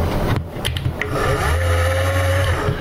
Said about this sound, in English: It's a slide switch, like on a regular mixer, where you have your variable speeds and you slide the mix, slide the switch to the left.